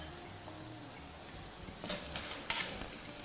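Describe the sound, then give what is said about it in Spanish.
Food frying fast in a pan over high heat until crispy: a steady sizzling hiss that grows busier in the second half, with sharper crackles and pops breaking through. “Esto parece que no, pero hay que ir deprisa, ¿eh? Hay que ir deprisa. Porque eso se fríe rápido.”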